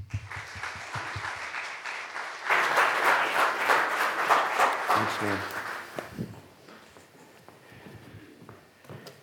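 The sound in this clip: Audience applause welcoming a speaker to a talk on marriage and insecurity: softer clapping swells into loud, dense applause for several seconds, then tapers off into scattered claps.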